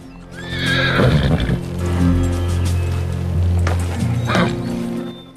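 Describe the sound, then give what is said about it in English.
A horse gives a high, wavering whinny near the start while being slowed to a walk on a rising trail, followed by low rumbling and shuffling that may include hoof steps. “McKay brings his horse to a slow pace as he spots a marker on the ground up ahead.”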